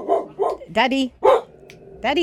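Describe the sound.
A dog barks in a quick run of several loud, sharp, mid-pitched barks with brief gaps between them, one pair coming close together.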